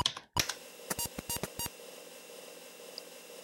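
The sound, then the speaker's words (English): Keystrokes on a computer keyboard typing the dir command at a BASIC ready prompt: one sharp click, then a quick run of crisp taps, followed by quiet. “So I'm sitting at the ready prompt in basic here. Ready. And I'm going to type dir, which is a directory command that the author put in there.”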